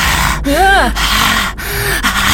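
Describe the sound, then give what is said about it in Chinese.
A voice imitates heavy breathing close behind someone in a ghost story. It makes a few loud, gasping, snorting breaths in an uneven rhythm. “然后他的那个呼吸的那个气都喷在我的脖子跟我的肩膀上”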